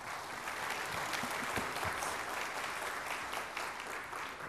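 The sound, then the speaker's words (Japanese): An audience at a tech company event claps continuously, producing a dense, steady wash of many hands that holds at an even level throughout, with no talk over it. “皆さん拍手でお願い”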